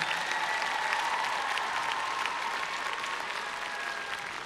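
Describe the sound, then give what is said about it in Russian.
Audience applause at a charity festival, fairly quiet but steady, many hands clapping in an even, continuous patter with a faint sustained tone underneath, easing slightly toward the end. “Помните, мы договаривались об аплодисментах.”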